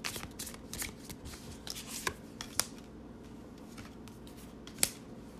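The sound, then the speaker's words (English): Tarot cards being shuffled, a steady papery riffling and sliding that runs the whole time, with a few sharper snaps of cards standing out above the soft continuous rustle. “Let me pull one more card on this to see if I can get something clearer than that.”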